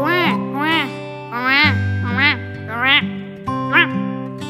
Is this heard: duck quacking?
yes